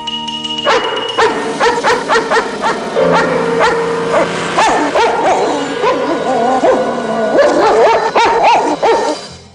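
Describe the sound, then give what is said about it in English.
An Alsatian guard dog barks furiously while lunging and straining on its chain outside an outhouse at night. Loud, rapid, harsh barks and yelps pour out almost without pause, then cut off abruptly at the end. “From an outhouse, an Alsatian guard dog lunges for him. The dog strains against its chain, baring its fangs.”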